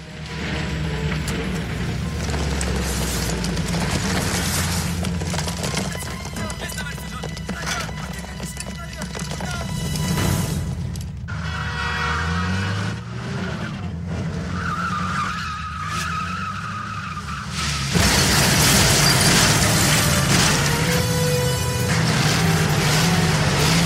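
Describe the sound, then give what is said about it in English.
A tank driven through a spy-film chase scene: dense, loud rumbling and mechanical grinding with screeching skids and clattering debris, continuous throughout and louder in the final seconds. “we get to a really awesome cool scene of the movie where Bond is driving a tank.”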